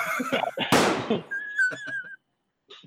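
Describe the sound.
A shotgun blast cuts through talk as one sharp, loud burst that quickly decays, followed by a thin steady whistling tone, then more voices before a brief silence.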